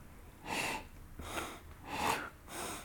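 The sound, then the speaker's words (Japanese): Forceful sniffs drawn in through the nose while the mouth stays open: four sharp, breathy inhalations in a steady rhythm, faint and with no other sound. “口閉じちゃダメで開けたまま、はい、でも口から吸わないで鼻からだけ吸ってね”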